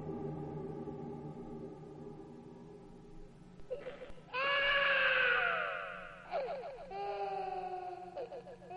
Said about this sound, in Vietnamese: Tiếng khóc thê thảm vang lên.